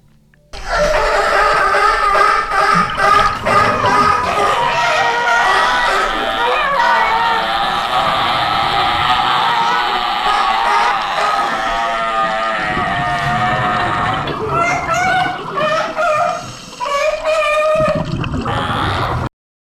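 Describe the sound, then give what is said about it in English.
California sea lions recorded underwater by a scuba diver: loud, dense overlapping barks, whines, buzzes and rapid click trains, continuous and busy throughout with layered tonal calls and pulsed rasps. “Those were the barks, whines, buzzes, and click trains of California sea lions as heard underwater by scuba”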